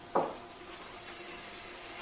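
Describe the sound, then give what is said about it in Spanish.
Onion is tipped into hot oil in a frying pan. A sharp sizzle bursts out once, then fades to a faint, steady hiss. “Vamos a darle un poquito más de candela a esto. ¿Cómo huele esto ya? Esto son 2 minutos, de momento. Vamos a echar la cebolla.”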